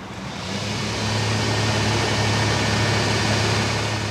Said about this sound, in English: It's gonna get loud now, so I'm gonna turn the pump on and start pumping down the cesspool.